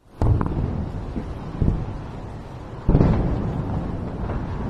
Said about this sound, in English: another sound, explosions in the sky as Israel's Iron Dome missile defense system sprang into action, intercepting a barrage of ballistic missiles coming from Iran